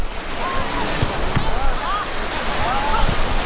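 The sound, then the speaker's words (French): Waves wash onto a beach of black sand with turquoise water, surrounded by green hills, making a steady, dense rushing roar that continues without a break for the whole stretch. “La plage est magnifique, l'eau turquoise, le sable noir et les collines autour sont verdoyantes.”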